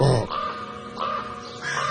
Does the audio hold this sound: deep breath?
no